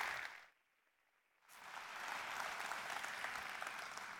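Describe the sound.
Audience applause in a church, welcoming a guest speaker: a short burst of clapping, a brief lull, then steady, dense clapping that holds to the end.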